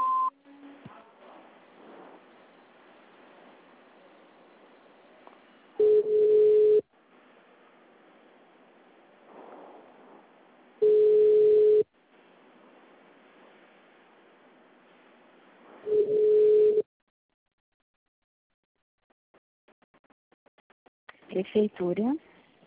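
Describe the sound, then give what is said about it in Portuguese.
Telephone tones on a call line after an automated Portuguese-language phone menu message: three steady, mid-pitched beeps about a second long, spaced roughly five seconds apart, with faint muffled sounds between them, all thin and band-limited. “Atendimento digital. Após o sinal, visite o ramal ou aguarde.”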